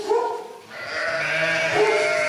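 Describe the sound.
A flock of 40 to 50 sheep sick with bluetongue bleat in a pen, their overlapping wavering calls forming a steady, loud chorus throughout.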